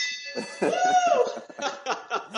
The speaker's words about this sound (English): There's that beautiful victory bell.